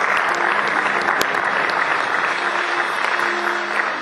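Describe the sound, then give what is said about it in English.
A church audience applauds, a loud, dense, continuous patter of many hands clapping at an even level from start to finish. “Let's clap for Jesus for his life.”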